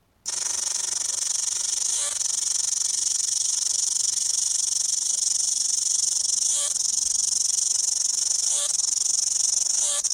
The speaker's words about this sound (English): here's a sound of a New Zealand cicada.